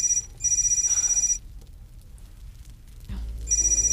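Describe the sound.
A telephone bell rings in a few sharp, high, trilling bursts, with a quiet gap between them before the ringing starts again.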